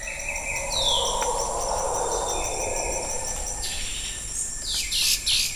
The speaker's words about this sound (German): Die Geräusche des Corcovado-Dschungels deuten an, was vermutlich viele von euch ohnehin wissen, Costa Rica ist ein absolutes Naturparadies